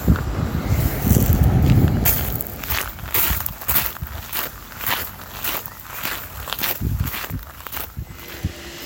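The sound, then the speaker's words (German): Footsteps walk uphill along a stone-paved street in Marburg's old town, a long run of steady, even steps with a light scuffing edge, each footfall crisp against a low outdoor background. “Dazu muss ich einfach den Steinweg hinauf, Neustadt entlang, bis zum Aufzug laufen und dort werde ich fündig.”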